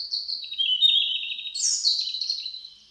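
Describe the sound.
Ornate birdsong, one continuous high warbling phrase rich in rapid trills and flourishes, which then climbs into a brighter, higher passage before fading out; heard clearly on its own.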